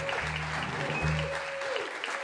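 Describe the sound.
Studio audience applauding a host's introduction at a live radio comedy show, a dense, even wash of clapping held at steady loudness across the whole clip.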